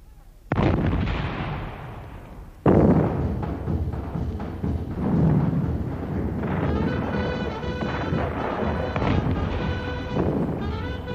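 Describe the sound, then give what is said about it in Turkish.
Dramatized cannon fire pounds Istanbul in a bombardment. Two heavy booms strike a couple of seconds apart, then give way to a continuous rumbling barrage of overlapping blasts and crackling. “Ve bir anda İstanbul semalarında toplar gümbürdemeye başlar.”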